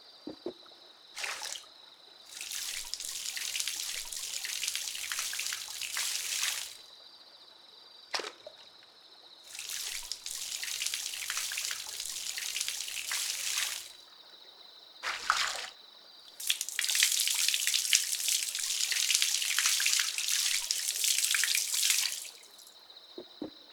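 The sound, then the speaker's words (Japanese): Hot water poured over someone during washing: three long, soft, hissing pours, each lasting several seconds. Brief splashy bursts come between them. “それではお湯をかけていきますね。”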